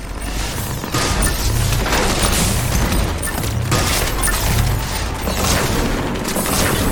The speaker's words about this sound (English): Whoa, whoa! An atlas dropped immediately next to us.